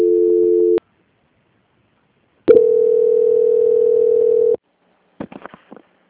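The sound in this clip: Telephone tones as a call is being transferred: a brief steady beep, a silent pause, then a longer unbroken tone of about two seconds, followed by a few faint clicks.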